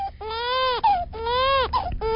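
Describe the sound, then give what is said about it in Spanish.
A small child cries hard in two long, strained, high-pitched wails. Each wail breaks off with a catching gasp before the next begins, and both are loud. “¡Ay, no! ¿Por qué llora ese chiquito?”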